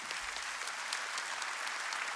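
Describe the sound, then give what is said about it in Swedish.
Applause from an audience at a Sunday club gathering: steady, dense clapping that holds evenly throughout, fairly faint, with no clear voices on top. “Tänk ändå, en applåd. En applåd.”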